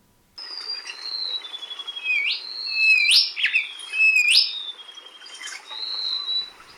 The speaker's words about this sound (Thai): นกจับแมลงป่าโกงกลางนะครับ เรื่องแบบนี้เนี่ยมันก็ทำให้เราเนี่ยได้ยินเสียงนกเหล่านี้เพราะว่านกเหล่านี้เนี่ยมันต้องร้องเพลง